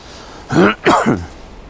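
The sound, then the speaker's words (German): A pair of short, throaty coughs, close together and fairly loud, over a low steady background hiss. “ein bisschen Husten habe ich noch.”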